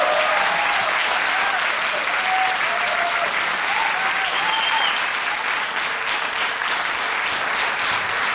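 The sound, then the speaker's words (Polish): A studio audience gives a standing ovation after a band's performance at a music award event. Dense, loud, sustained applause from many hands holds steady throughout. “a publiczność w naszym studiu imienia Agnieszki Osieckiej owacją na stojąco”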